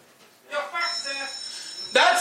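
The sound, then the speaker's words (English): A person imitates a fire alarm with their voice: a sustained, pitched, droning wail held for over a second, then a sharper, louder, brighter burst at the end. “Do I hear somebody making the noise of a fire alarm for me?”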